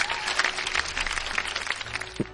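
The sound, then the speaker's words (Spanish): Brief burst of applause, many hands clapping in a quick, uneven patter with a few sharper claps standing out, fairly loud and short-lived. “Un aplauso para Albetolas y para su amiga, a Leli.”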